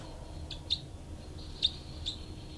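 Birds calling: four brief, high chirps spaced irregularly, faint over a low, steady background hum.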